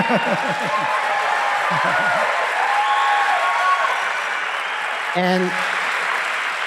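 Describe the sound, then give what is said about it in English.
An audience applauds steadily throughout, a dense, even wash of clapping, with a speaking voice briefly audible at the start and another near the end. “Let's hear it for her.”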